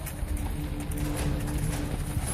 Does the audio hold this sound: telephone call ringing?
no